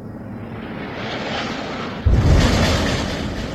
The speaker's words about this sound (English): Anas al-Sharif posted 13 seconds of video of heavy bombing in Gaza City. He captioned this clip, quote, "Relentless bombardment.